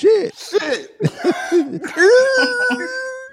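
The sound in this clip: A voice imitates a woman coughing with a few rough, throaty bursts of varying length, ending in a drawn-out, strained vocal sound.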